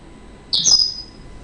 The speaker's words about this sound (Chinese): 虽然小鸟叫的挺清脆，但是它这声音挺大